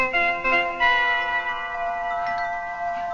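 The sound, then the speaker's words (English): A doorbell rings with a musical chime, playing sustained, layered tonal notes that ring on steadily and fairly loudly with no voices over them. “What was that music? That was the doorbell.”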